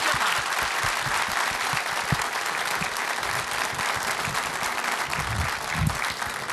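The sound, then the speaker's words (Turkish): Audience applause after a Turkish folk song performance, a dense, steady wash of many hands clapping that holds at an even level for several seconds. “Bir alkış istirham edeyim efendim.”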